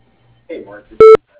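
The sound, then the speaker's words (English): A single loud, steady voicemail beep sounds briefly and alone, cutting off cleanly after a short burst of faint voice. “Please leave us a message after the tone.”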